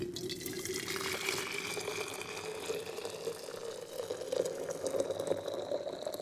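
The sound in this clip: Hot onion tea being poured, a steady splashing liquid stream with a filling tone that climbs gradually in pitch as the vessel fills, with no talk over it.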